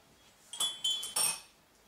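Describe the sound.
A teaspoon stirs coffee in a cup, giving three quick, bright metallic clinks against the porcelain over a quiet, faint background.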